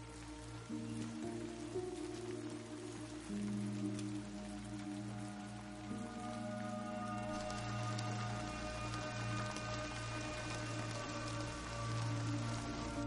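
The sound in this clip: Steady rain falls at night beside the ruins of a burned-out house, a faint, even patter with a low sustained hum beneath it throughout.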